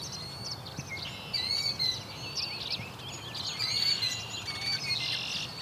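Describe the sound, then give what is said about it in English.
A killdeer calls repeatedly in shrill, high-pitched notes that come in quick bursts over a steady, hissing background. “this is a very familiar sound. The killdeer like to try to lead you away from where their nest is at.”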